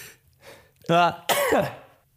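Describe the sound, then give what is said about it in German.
A person sneezes once: a voiced, tonal build-up gives way to a loud, breathy burst that quickly fades, with faint breaths just before it. “Oh, warte mal, ich muss kurz niesen.”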